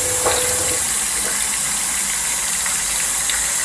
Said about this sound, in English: Make sure all that spare silver's washed off.